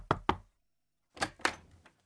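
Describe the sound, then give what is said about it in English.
Knocking on a door: two quick raps, a pause of nearly a second, then two more raps followed by a couple of fainter taps. The knocks are quiet and there is no talking. “who should come knocking at the door but Eeyore”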